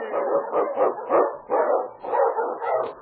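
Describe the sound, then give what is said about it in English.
Eskimo sled dogs barking during a trail run through storm and snow. Many rapid, overlapping barks and yips continue without a break at a steady, fairly loud level. “Wonder Dog King, swiftest and strongest Eskimo lead dogs, blazes the trail through storm and snow for Sergeant Preston”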